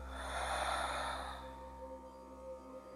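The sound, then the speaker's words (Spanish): A deep breath is exhaled through the mouth as a soft, breathy whoosh that swells and then fades away over a faint steady hum. “Una más, inhala profundo. Y por tu boca suelta.”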